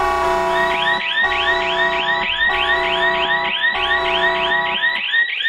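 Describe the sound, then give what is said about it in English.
An alarm sound effect blares loudly as a repeating electronic wail of rapid rising sweeps, cycling many times in a steady pulsing pattern broken by brief gaps. “That is the alarm for it's just us two doing it this week, so be prepared for what's going to come.”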